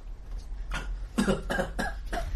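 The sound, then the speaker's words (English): A woman coughs a few times in quick succession, short rough bursts following one another at a brisk, uneven rhythm, fairly loud against a low steady background hum, with no talk. “she coughs a few times”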